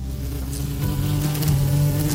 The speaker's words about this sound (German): Nicht nur du findest das Brötchen lecker, auch das Wespe will ein Stückchen abkriegen.